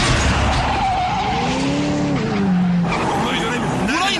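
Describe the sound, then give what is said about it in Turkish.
A car accelerates hard during a chase, its engine roaring continuously and loudly while the tires squeal in long gliding tones that shift in pitch. “Bas şu gaza. Biraz sabret, gazlıyorum işte.”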